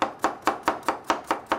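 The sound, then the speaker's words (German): A cook's knife chops carrots for soup in eight steady, evenly spaced strokes. Each is a crisp, clacking thud with a quick decay, heard alone without talk. “Das Einzige, was hier klappert, das ist mein Messer. Ich hack nämlich gerade Möhren, seht ihr?”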